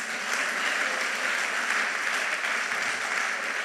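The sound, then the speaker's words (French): A church audience applauds in steady, dense clapping that carries loudly and evenly from start to finish, with no pauses or distinct cheers standing out. “Oui, oui, acclamez pour le Seigneur.”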